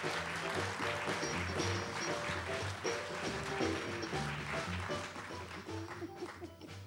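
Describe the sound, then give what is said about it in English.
Audience applause at a live variety stage show, a dense, steady wash of clapping that holds an even loudness for several seconds. “un aplauso otra vez, por favor”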